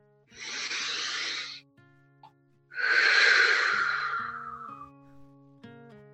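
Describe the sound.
Two long, deep breaths rush loudly over soft sustained organ-like chords at the close of a prayer. The first lasts over a second, and the second is longer and fades gradually.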